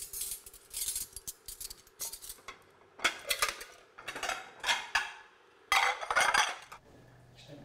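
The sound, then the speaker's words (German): Deep and flat plates clatter as a table is set for nine people, family and harvest crew. Many sharp clinks and knocks of crockery come in irregular bursts, with short pauses between and no talking. “Tiefe Teller, flache Teller.”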